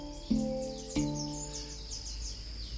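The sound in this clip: Birdsong at dawn, around six in the morning, in the Amazon forest near a village in French Guiana, faint high chirps and descending whistles repeating many times over a steady low drone, with two sharp clicks early on.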